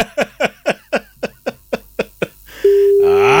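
A telephone call rings unanswered: nine short, evenly spaced tonal pulses, then a steady continuous tone.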